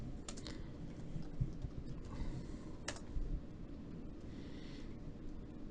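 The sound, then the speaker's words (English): Faint typing on a computer keyboard, a few scattered key clicks over a soft background hiss. “Let me type in Speed Racer.”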